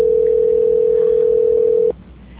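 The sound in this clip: A steady telephone line tone plays during a call transfer. It holds one loud, unbroken pitch for nearly two seconds, then cuts off abruptly, leaving faint line hiss with no voices.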